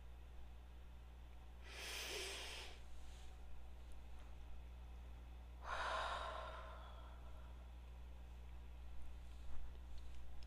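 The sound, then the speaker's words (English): A slow deep breath, heard as two soft, breathy rushes of air several seconds apart, alone against a quiet, steady background hum. “I'm going to start with a deep breath before I get into this.”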